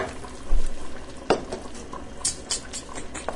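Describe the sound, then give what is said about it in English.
Sauce being stirred in a pan, a soft, irregular scraping and light clatter punctuated by a few sharper knocks of the utensil, fairly quiet and without talk. “And I'm gonna give the sauce another little stir.”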